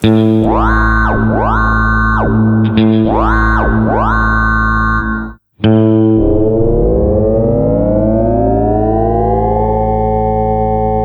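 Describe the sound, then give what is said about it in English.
Guitar through the ring modulator of a Boss GT100 effects unit, swept by its expression pedal: loud, metallic, siren-like notes that rise and fall repeatedly, a brief cutout, then a sustained buzzing tone that glides slowly upward. “Here's a couple examples of the Excel pedal controlling the ring modulator.”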